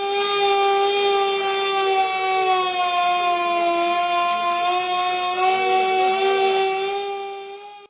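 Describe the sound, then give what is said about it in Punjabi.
Air raid siren sounded in civil defence drills: a loud, continuous wail rich in harmonics, holding a nearly level pitch with slight wavering throughout before fading a little at the end. “ਨਾਗਰਿਕਾਂ ਨੂੰ appeal ਕੀਤੀ ਜਾ ਰਹੀ ਹੈ ਕਿ ਜੇਕਰ ਹਵਾਈ ਹਮਲੇ ਦੇ ਸਾਇਰਨ ਵੱਜਦੇ ਹਨ”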